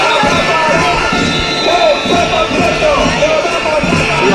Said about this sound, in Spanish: Comenzaba con paros y con una sonora concentración a las puertas de la consejería.